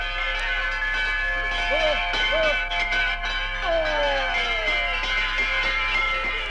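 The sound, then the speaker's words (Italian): Bronze bells cast in Switzerland and tuned to seven musical notes ring in high mountain pastures, many overlapping strikes blending into a steady, bright chime with sustained ringing tones throughout. “Che musica è mai questa? Non certo di rustici campanacci di ferro. Sono autentiche campane di bronzo, fuse in Svizzera con le 7 note musicali.”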